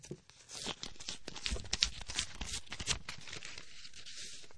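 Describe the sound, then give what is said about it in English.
An envelope holding exam results is torn open: a continuous crackling paper rip with rustling bursts that stretches over several seconds, fairly faint and without speech. “Okay, let's open this envelope.”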